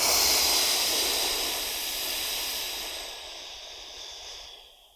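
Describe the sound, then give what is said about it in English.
A deep breath is let out during a guided breathing exercise. It is a long, steady breathy hiss that slowly fades over about five seconds, with nothing else heard. “Another deep breath in. And let it go.”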